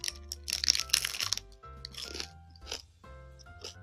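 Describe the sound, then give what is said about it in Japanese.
Crunching as teeth bite into a hard, crusty French baguette, a few sharp crackly bites followed by quieter chewing crunches, faint overall and with no talking. “このカチカチのフランスパンに、ホットコーヒー。”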